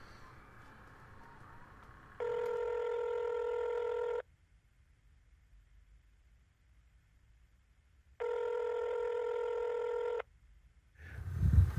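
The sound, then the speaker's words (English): Telephone tones sound as a number is dialed: two long, steady electronic tones of about two seconds each, separated by several seconds of near silence, with a low rumble swelling at the very end. “I want to actually dial in his number.”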